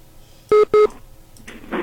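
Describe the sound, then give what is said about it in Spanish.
Telephone line tones sound as a call is cut and transferred to another line: two short, loud, steady beeps in quick succession, followed by faint hiss and rustle. “Sí, voy a otra línea. Ok, espérame, sí, voy a cortar la llamada. Espérame. Okay. Vamos a colgar.”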